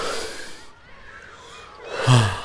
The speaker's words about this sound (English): We are going to breathe in. Okay, breathe in.